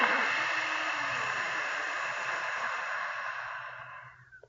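A slow exhale during a guided breathing exercise: one long, airy, breathy rush of air that holds steady for several seconds and then fades away at the end.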